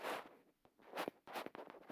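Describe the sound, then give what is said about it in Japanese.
Faint rustling in short, soft, scratchy bursts that start and stop unevenly. “ほーら、ガサガサガサガサガサガサ。”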